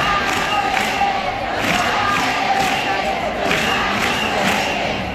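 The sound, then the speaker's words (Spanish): Protesters in Madrid chant against the privatization of the city's child care centres. The crowd's voices come in loud, rhythmic, repeated bursts over a steady dense roar. “Así lo escuchábamos en los manifestantes.”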